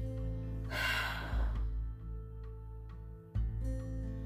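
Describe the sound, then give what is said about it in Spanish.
A deep breath exhaled through the mouth during a guided end-of-year meditation, a soft airy rush of about a second over a steady low musical drone. “Una última respiración así de profunda. Llena tus pulmones, llénalos, llénalos. Sostén esa emoción que necesita ser liberada. Exhala por la boca.”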